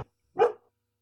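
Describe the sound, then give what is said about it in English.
A dog gives a single short, sharp bark in the background, standing alone in quiet after a brief clipped sound at the very start. “That's my dog in the background.”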